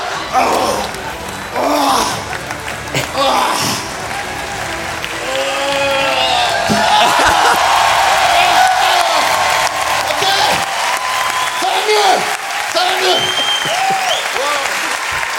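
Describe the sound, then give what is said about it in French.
An audience applauds and cheers, with clapping that swells into a loud, sustained roar of hands, scattered whoops and crowd noise, while several people talk and call out over it. “On peut l'applaudir.”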